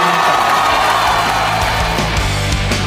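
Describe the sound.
Below the Italian Chamber of Deputies, a crowd applauds and cheers, with whoops and yells rising from a loud, continuous roar.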